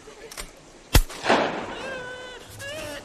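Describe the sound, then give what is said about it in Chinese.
A single gunshot fired into the air to scare off wolves: a sharp crack with a rumbling tail, followed by excited voices. “我朝天开一枪，能吓跑他们就行。”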